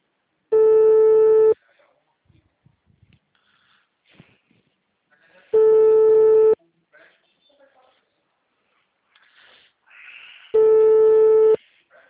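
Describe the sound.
Ringback tone on an outgoing telephone call: three steady, mid-pitched beeps of about a second each at even intervals of roughly five seconds, with faint soft noises in the gaps.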